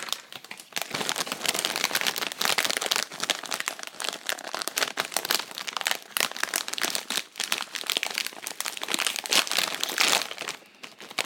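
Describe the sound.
Steady crinkling and crunching of a packet of pork scratchings being handled. The crackly rustle continues unbroken for the whole stretch, loud and busy, with no talk over it.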